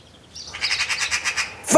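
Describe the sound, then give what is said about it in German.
A magpie calls in a garden with a rapid, rhythmic series of harsh, rattling chatter notes. “Vogelalarm! Vorsicht, Monika, eine Elster!”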